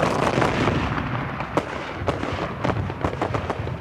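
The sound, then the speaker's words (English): A ragged volley of musket fire from defenders on a wall at advancing troops: many sharp, cracking reports in quick, uneven succession, with a few louder shots standing out over a dense, rumbling wash of gunfire. “A volley of musket fire ripped out from the wall, and Despard's men”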